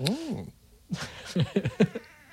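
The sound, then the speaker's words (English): A 19-year-old cat gives one short meow with an arching pitch at the very start, followed by a few bursts of people talking. “That's your cat. Yeah. My 19 year old cat is here.”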